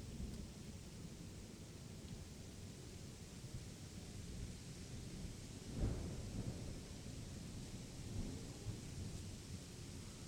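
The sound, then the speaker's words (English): Rain falling with thunder: a faint, steady hiss of heavy rain with low rumbling and one brief, sharper burst near the middle. “The rain falls relentlessly.”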